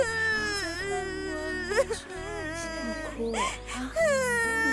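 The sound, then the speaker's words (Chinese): Young boy crying after refusing a birthday cake: loud wailing sobs with wavering, sliding pitch, broken by short catches of breath and sustained through the whole stretch. “怎么又哭上了？”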